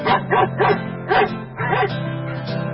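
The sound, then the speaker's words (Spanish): A dog barking: a quick run of short, sharp barks, then a longer, drawn-out call that carries on to the end, loud and clear with no talk over it. “Escucho al perro.”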